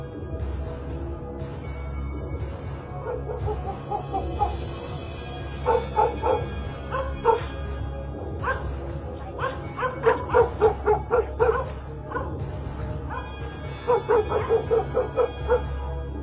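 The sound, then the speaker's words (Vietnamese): Dogs barking: many sharp, high yips and barks in quick clusters, coming and going over a steady low rumble, with short quiet stretches between the bursts. “Xung quanh chỉ là tiếng chó sủa, tiếng chó tru.”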